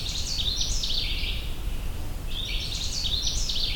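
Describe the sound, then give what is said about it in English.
A Canada warbler, a small colorful songbird, sings two bursts of rapid, bright, high-pitched warbling, separated by a short pause, above a steady background hiss. “I'm pursuing a Canada warbler, a small, colorful warbler with a bright and cheery warbling song that sounds like this.”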